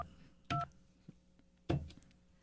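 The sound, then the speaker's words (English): Two short telephone keypad dialing tones sound as separate electronic beeps about a second apart, clear and fairly loud against a quiet background. “Dial 9. Thank you. You forgot to tell me to dial the 9.”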